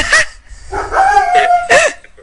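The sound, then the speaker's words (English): A German shepherd barking, a few loud, sharp barks with one drawn out into a longer, tonal howl-like note between them. “Bark at the moon. It's a shepherd. That's why. He's a German shepherd.”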